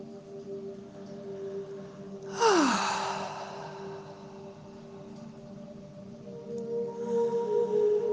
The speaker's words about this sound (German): Und dann nimm erstmal einen ganz tiefen Atemzug.